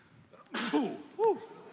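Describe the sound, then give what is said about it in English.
A single sneeze bursts out sharply as a loud, noisy blast, followed right after by two brief voiced sounds. “I usually sneeze like three times. Yeah, bless you.”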